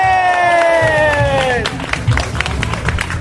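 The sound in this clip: An audience cheers with a long, drawn-out shout that slides down in pitch, then breaks into a scattering of sharp hand claps mixed with lively crowd noise.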